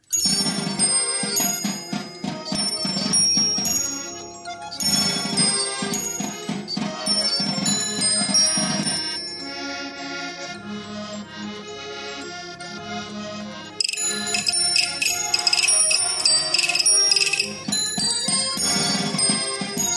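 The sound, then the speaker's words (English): Swiss orchestral musical box playing a bright, continuous melody of plucked metal-comb notes mixed with bell-like chimes and a soft low pulse. It stays loud throughout, with no talking. “You're about to hear an orchestral musical box from Switzerland, part of the collection at the Singapore Musical Box Museum.”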